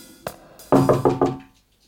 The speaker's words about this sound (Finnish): Sovittuna ajankohtana koputin kevyesti huoneen oveen.